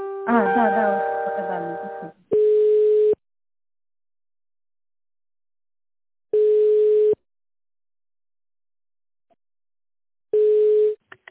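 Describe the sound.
Phone line ringback tone during a call transfer: after a stretch of talk, three long, steady single-pitch beeps sound about four seconds apart, with silence between them.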